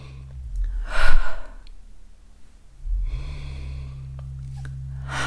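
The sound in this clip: A deliberate deep breath is drawn in through the nose during a guided breathing exercise with essential oil, a few soft, airy inhalations over a low, steady hum.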